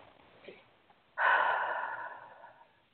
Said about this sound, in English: Nice deep breath.